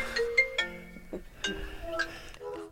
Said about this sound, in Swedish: Det var svårt att fortsätta ett vanligt samtal här i studion när telefonen ringde.